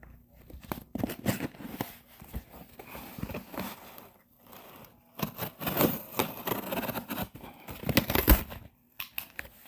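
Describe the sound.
Cutting open a taped cardboard box with a retractable blade: irregular bursts of scraping, tearing tape and crinkling cardboard, separated by quieter pauses, with no clear talking.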